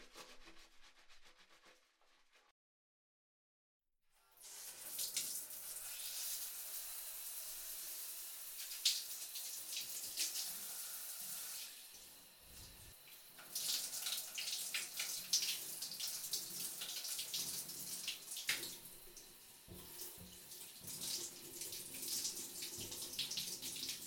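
Water runs from a tap to rinse off after a wash. It starts after a brief silence and then flows as a steady, fairly loud rush for a long stretch, with soft rubbing sounds mixed in.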